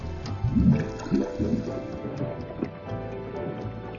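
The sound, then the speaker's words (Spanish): Hot bubbles rising from underwater volcanoes make a muffled, low gurgling, with several bubbly bursts early on and a murky, steady wash after. “La actividad geotérmica de estos volcanes submarinos produce burbujas calientes que ascienden hacia la superficie.”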